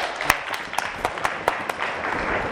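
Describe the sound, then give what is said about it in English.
Applause for students after a drumming performance: a steady wash of clapping with several sharper claps standing out, fairly even throughout and no speech. “So round of applause to all my...”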